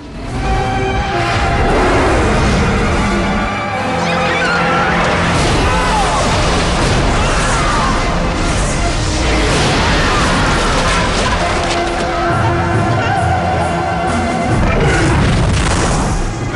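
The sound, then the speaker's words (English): Explosions from a dragon shooting fireballs over sections of a city make a continuous, loud mass of heavy booms and crashing rumble that barely lets up. “The dragon soars over different sections of Ishmir, shooting fireballs from its mouth.”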